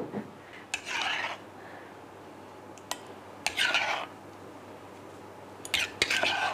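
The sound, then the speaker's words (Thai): Olive oil is stirred into a salad dressing with a few short bursts of scraping and rubbing from a utensil against a bowl, separated by quiet gaps with a single sharp click. “ส่วนที่เหลือเราก็จะใส่น้ำมันใส่เลยน้ำมันมะกอกก็ได้นะคุณผู้ชมส่วนนี้ก็จะเป็นน้ำสลัดของเราค่ะ”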